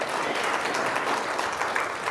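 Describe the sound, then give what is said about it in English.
Audience applause, a dense, even patter of many hands clapping that holds at a steady level throughout, with no voices standing out. “Maybe I can think of some more and get some more claps.”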